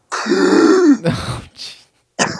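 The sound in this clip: A voice imitates the choking, strangled gasps of someone struggling to breathe through a badly swollen throat: one long, strained, groaning gasp, then three shorter rasping bursts.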